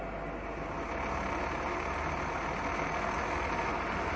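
A machine runs with its revolutions raised while turning out a part in a workshop, giving a steady, loud mechanical drone with a low engine-like hum that holds even throughout, with no voices.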